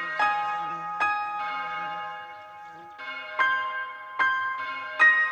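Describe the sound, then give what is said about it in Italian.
A regimental bell rings out in several clear, resonant strikes, each leaving a long shimmering tail. The strikes come unevenly, with a longer pause in the middle and fainter tones between the strong ones. “E qui è il suono della campana del reggimento.”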